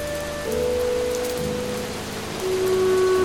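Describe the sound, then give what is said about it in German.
Rain patters down in a steady, even hiss with soft drop sounds throughout, under sustained low musical tones that shift pitch now and then. “Regen prasselte auf uns herab.”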